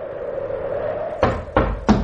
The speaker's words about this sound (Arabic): من بالباب؟ أنا سفيان، افتح الباب.